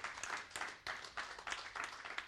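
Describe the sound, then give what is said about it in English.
A church audience clapping, faint and uneven applause that swells and dips in a few surges, made of many hands clapping at once without any voices over it. “It deserves a clap offering from you. A better clap offering.”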